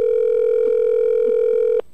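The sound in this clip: A telephone dial tone, steady, loud and continuous, sounds while a random number is being called, then cuts off abruptly near the end.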